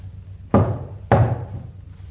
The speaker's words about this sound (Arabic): ووقف يطرق البوابة